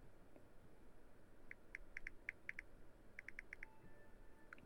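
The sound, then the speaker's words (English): Faint computer-keyboard typing while a message is written: two quick runs of soft, crisp key clicks over a quiet hiss, with no talking. “I'm typing a message. Give me one second here.”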